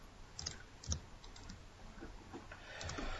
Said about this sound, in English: in the time it took him to send the link, I already typed in the URL